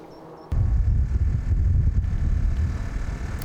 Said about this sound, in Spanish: Ya lo ven y sobre todo ya lo oyen. El fortísimo viento en la zona complica el control de estos gravísimos incendios.